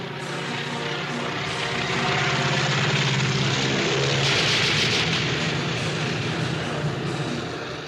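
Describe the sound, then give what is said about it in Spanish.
Airplane engine from a famous film scene: a loud, continuous propeller drone with a rough, buzzing texture. It swells slightly toward the middle, then eases off, and no voices are heard over it. “Lo del avión, sí, esa escena tan famosa del avión, ya está en el año 35.”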